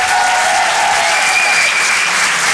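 Short burst of comedy club audience applause, dense clapping kept at an even, loud level through its brief span.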